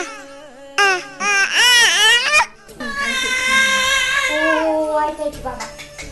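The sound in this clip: A nine-month-old infant cries in loud, wailing bouts, its high voice wavering and breaking in pitch, with short gasping pauses between cries.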